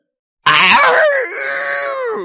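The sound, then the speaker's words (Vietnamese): A furious roar from a monstrous creature with a huge mouth of sharp white teeth: one loud, harsh cry that breaks out abruptly, then settles into a long, strained tone that slowly fades. “Yêu Lan phát ra một cái tiếng gào thét phẫn nộ, mở ra cái miệng lớn đầy răng nhọn trắng”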